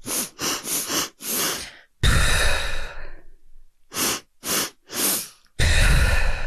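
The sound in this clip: Active breathing exercise: a few short, forceful sniffing inhales through the nose, then one long, loud exhale through the mouth. The sequence happens twice, and no one speaks.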